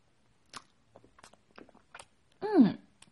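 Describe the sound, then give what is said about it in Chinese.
Chewing of beef, with soft, scattered clicks and crunches from the mouth over a few seconds, followed by a short voiced hum of enjoyment. “嗯，这块牛肉可真好吃。”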